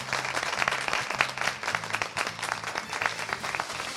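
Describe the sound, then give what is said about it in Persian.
An audience claps for itself at an event in Safadasht, with moderately loud applause where separate sharp hand claps stand out repeatedly within the dense crowd clapping. “خب خوشحالم که اینجایید، برای خودتون یه دست بزنید.”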